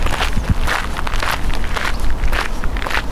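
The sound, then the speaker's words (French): Footsteps of people walking on a dry grass path beside an open-air riverside café, a steady, continuous crunching and rustling throughout with no voices. “Sur le long sentier qui longe la guinguette, il y a des gens qui marchent.”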